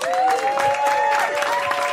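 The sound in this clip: A studio audience applauds a comedian guest being welcomed onto a talk show. Steady, lively clapping runs throughout, with cheering voices rising above it.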